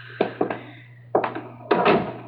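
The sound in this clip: Door closing with a few dull thuds and knocks spread unevenly over a couple of seconds. The bumps are moderately loud above a constant low hum.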